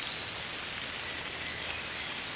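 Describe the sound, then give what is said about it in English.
Light rain falling in a peaceful forest, a steady, soft, even hiss of drops with no breaks, faint and without voices. “It is raining lightly, but it does not bother you. You can feel now the rain.”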